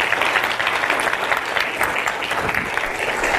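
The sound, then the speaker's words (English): Applause from a church audience welcoming guests during a morning service: steady, dense clapping from a crowd that holds at an even level throughout. “let's give them a warm welcome here this morning.”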